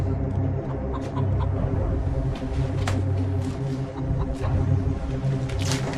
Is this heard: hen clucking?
yes

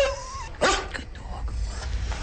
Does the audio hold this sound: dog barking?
yes

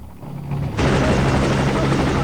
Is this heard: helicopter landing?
yes

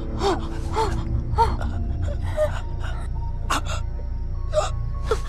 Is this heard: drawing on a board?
no

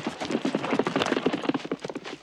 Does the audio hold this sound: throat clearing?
no

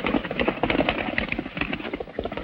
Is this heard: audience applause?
no

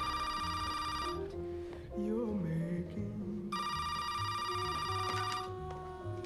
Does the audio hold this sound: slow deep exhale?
no

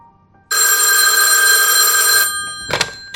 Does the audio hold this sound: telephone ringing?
yes

